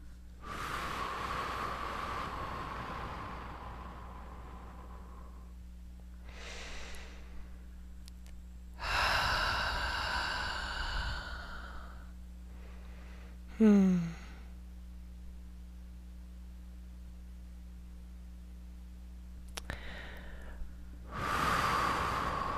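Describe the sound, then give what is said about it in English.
Slow, deep breaths are drawn in through the nose and released out through the mouth. A few long, airy breath sounds are separated by pauses and stay fairly faint over a low, steady hum. “Okay, so let's take a nice deep breath, please. I recommend in through the nose, out through the mouth.”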